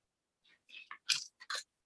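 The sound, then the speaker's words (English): Crisp crinkling and rustling of a paper page being turned right beside a microphone: a quick series of short, bright, papery bursts, fairly quiet, with no voices. “I'm going to physically turn a page by a microphone.”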